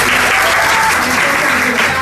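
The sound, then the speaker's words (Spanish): Audience applause for a speaker at an evening debate on feminist self-defense, a loud, dense and even wash of clapping that holds steady throughout. “Entonces un aplauso para Katie, por favor.”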